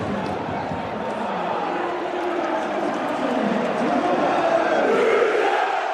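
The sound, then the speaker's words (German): A football stadium crowd erupts after a free-kick goal. It is a dense, sustained roar of cheering and shouting that stays loud throughout and swells slightly toward the end. “Hier ist alles hochgeflogen nach einem Freistoß für Rot-Weiß Essen und dem Tor von Torben Müsel. Mal kurz reinhören.”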